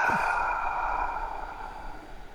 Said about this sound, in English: Hold it for a second and open the mouth, let it out.